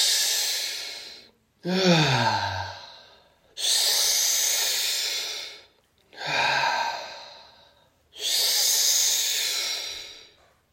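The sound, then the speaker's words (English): Deep breathing during a guided breathwork exercise: five long, loud, airy breaths alternating between inhales and exhales, with one exhale carrying a low voiced sigh that drops in pitch. “Let it go. Fully in. Let it go. Filling up from the balls to the chest to the head.”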